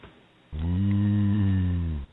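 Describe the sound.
A human voice imitates a cow's mating call with a single long, low, droning moo that holds steady for about one and a half seconds, heard alone.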